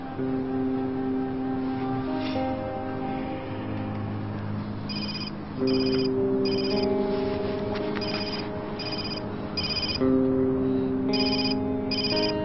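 Phone ringing with an electronic ringtone melody, sustained tones under repeating bursts of high, bright beeping that come in regular groups, with no voices.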